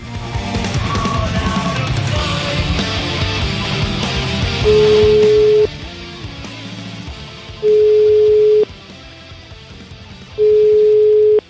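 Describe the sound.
An outgoing telephone call rings out with three steady, mid-pitched line tones, each about a second long with pauses of roughly two seconds between them. They follow a dense, louder passage of other sound that fades away.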